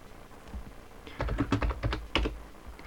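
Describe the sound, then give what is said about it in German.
Computer keyboard keys clatter as the Ctrl+C combination is pressed. A short cluster of several quick clicks stands out over a steady low background noise. “Die Aufnahme beende ich mit der Tastenkombination Steuerungstaste und C.”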